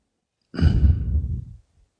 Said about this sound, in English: Let's go ahead and take a deep breath in, holding it. On the exhale